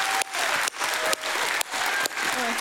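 Church audience applauding to welcome the youth leader: dense, steady clapping that dips briefly several times but keeps going for the whole stretch.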